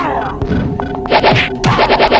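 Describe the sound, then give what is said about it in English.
Bomb or mine dropping sounds from a video game: a busy run of short thuds and knocks mixed with bright electronic blips, with a cluster of repeated high tones toward the end. “the thing to my right that is making noise, that is a mine. Or a bomb, I think, that's being dropped.”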